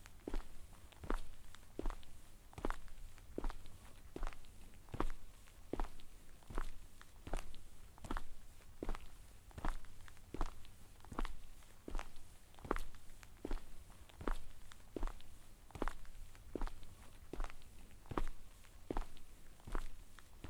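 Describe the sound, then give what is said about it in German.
Steady footsteps walking along a street, with crisp, even steps at a regular walking pace. Many steps follow one another with no talk, over a low, constant background hum. “Wir folgen der Straße leicht rechts. Seguiremos a rua pela direita. Dann gehen wir weiter geradeaus direkt auf New Yorker zu.”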